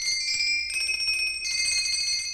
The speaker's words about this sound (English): Sandy's workshop, rang the bell.